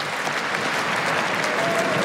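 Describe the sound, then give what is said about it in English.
A tennis stadium crowd applauds a former champion who now coaches a player, a steady, dense wash of clapping without breaks or peaks. “Fabrice Santoro is asking the crowd to applaud Juan Carlos Ferrero”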